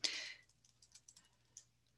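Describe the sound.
Faint typing on a computer keyboard as text is entered into an online Q&A box: a brief louder burst at the start, then a sparse run of light, irregular key clicks.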